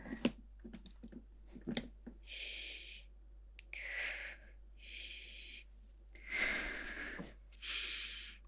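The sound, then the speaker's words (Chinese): Slow rhythmic breathing, drawn in through the nose and out through the mouth: five long, airy breaths at fairly even intervals, preceded by a few soft clicks and set over a low steady hum. “找不到节奏，跟着我的呼吸走吧。这样哦。要不你把头靠近点，好好听听我的呼吸节奏。”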